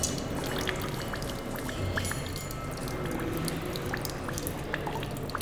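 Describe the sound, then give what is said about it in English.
Water drips steadily in an installation where a pump and an elastic cone respond to the changing weight of water. Many small, sharp drips tick irregularly over a continuous watery wash. “and now it's going up. So the dripping sound also a little bit louder.”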